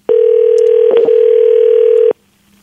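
Ringback tone of an unanswered telephone call: one steady, loud tone at a constant pitch lasting about two seconds, then silence.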